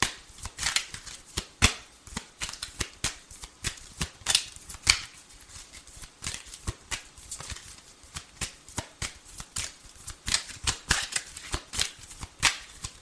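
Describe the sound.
A deck of playing cards being shuffled: a long string of crisp, rapid snapping riffles and taps in uneven bursts, clear and alone.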